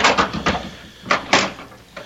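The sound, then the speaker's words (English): A door is opened with a run of short knocks and rattles, a pause, then two sharper clunks close together and a softer one at the end. “Would you open the door, please?”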